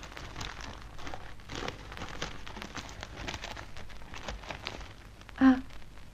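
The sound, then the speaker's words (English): Wrapping crinkles and rustles as a package is unwrapped on a table, a faint, continuous crackling texture with soft scattered pops. “Well, something to show you. All right to unwrap it on this table? Quite all right. Good.”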